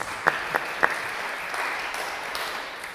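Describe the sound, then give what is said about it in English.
Applause from an audience at a talk begins with three sharp, evenly spaced claps, then settles into a quieter, diffuse patter. “I think we should give her a round of applause”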